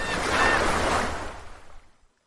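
Murmur of water: a dense, steady rush of flowing water that holds level for over a second, then thins and fades away to near silence.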